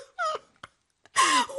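A woman cries in a dramatized story, letting out two wavering, high sobbing wails with short, catching gasps in between.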